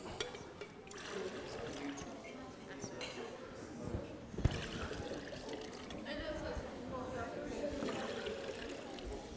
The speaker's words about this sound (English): So in my two beakers here, I have two different colored liquids. Let's see what happens if we mix them.